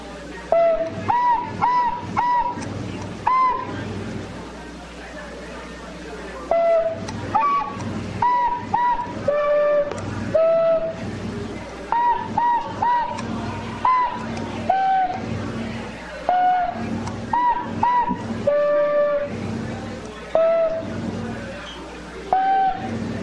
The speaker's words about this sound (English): All right, let's play a little tin whistle, and we'll be back a little bit.